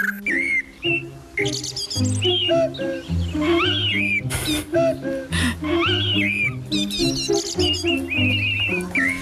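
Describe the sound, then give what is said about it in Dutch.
Blackbird and cuckoo song: bright fluting phrases and quick chirps repeat throughout, layered over low sustained tones. “De vogels. Ja. Merel en koekoek.”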